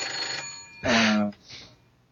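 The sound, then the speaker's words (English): A telephone rings during a conversation, its ringing mixed with voices and rising briefly to a louder burst in the middle before fading. “And I've got a phone ringing. I do apologize.”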